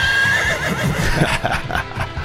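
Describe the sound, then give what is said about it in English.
A horse neighs, a loud, wavering whinny that rises over a dense, noisy background. “Oh, of course he has a horse.”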